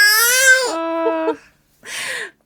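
A baby crying: a long, loud, wavering wail with a strong tonal pitch, then a brief pause and a shorter, breathier second cry.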